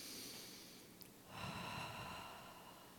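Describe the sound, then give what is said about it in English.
A slow, deep breath drawn in through the nose, heard alone without talk: faint quiet at first, then a soft, airy inhale begins about halfway through and holds steadily to the end. “So let's take a breath in this moment.”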